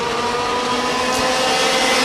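Go-karts race around a circuit on dry tyres in a preliminary heat, their engines making a continuous, loud, buzzing drone with no clear separate passes.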